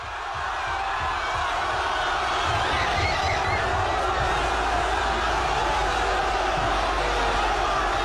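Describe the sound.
Crowds fill the streets of Madrid celebrating Spain's football World Cup win, a continuous, even roar of many distant-sounding voices cheering together without a break.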